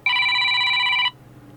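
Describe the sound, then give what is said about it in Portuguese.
A telephone rings with an incoming call: one bright, steady electronic ring lasting about a second that cuts off abruptly, with no talk. “Vamos atender esta chamada ao professor Carlos Marinho.”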